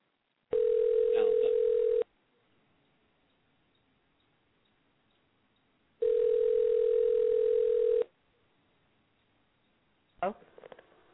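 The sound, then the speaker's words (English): Telephone ringing tone while a number is dialled: two loud, steady buzzing tones of about two seconds each, separated by a four-second pause, then a short click. “All right. I'll dial the number up. When they answer, you can talk to them.”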